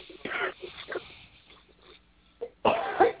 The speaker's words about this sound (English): I'm kind of catching my throat.